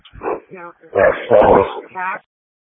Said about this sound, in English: No, unfortunately, due to the dog barking, I wasn't able to copy all of that.